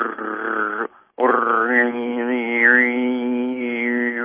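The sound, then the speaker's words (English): A human voice imitates an annoying motor with a loud, steady buzzing drone that holds one pitch with slight wavering. It runs in two sustained stretches separated by a short pause. “So say you're around some motor that's really annoying, and it's going, let's see if I can get a motor sound. It's going,”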